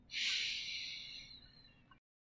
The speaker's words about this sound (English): Begin with a calming breath in and let it all go slowly. Inhale.